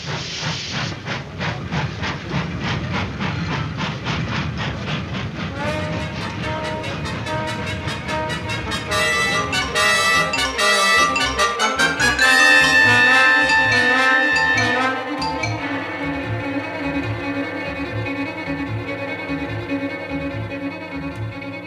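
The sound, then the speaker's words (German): A steam train pulls away into the night in Chicago with fast, hissing chuffs. A high whistle sounds midway, then a steady rhythmic clatter of wheels continues to the end. “Und der Zug brauste davon”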